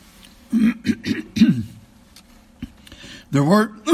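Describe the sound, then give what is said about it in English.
Throat clearing from a person speaking on the word havoc: several harsh, rasping bursts in two clusters, with a quiet gap between them. “excuse me, can't get this out of my throat.”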